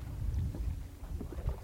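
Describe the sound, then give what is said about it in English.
A boat heading toward shore across the water, carrying a friend's belongings from Nuuk, Greenland, gives a steady low rumble with a faint airy wash of wind throughout, and no voices. “her eyes drift over to a boat heading our way. My friend's coming here with my things from Nuuk”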